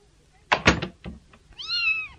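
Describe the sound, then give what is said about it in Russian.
A kitten gives one drawn-out meow, a high, clear, tonal cry that arches slightly in pitch. It comes after a few dull knocks and thumps. “какой хорошенький котеночек. Можно мне его подержать?”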